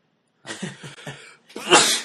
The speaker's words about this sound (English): So I'm just about to sneeze.